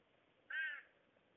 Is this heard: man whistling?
no